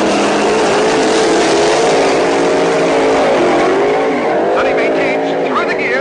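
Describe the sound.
Drag racing cars launching from a green light and accelerating hard, one of them an Oldsmobile, with loud, continuous roaring engines whose harmonics bend up and down through gear shifts, while a voice talks over the noise.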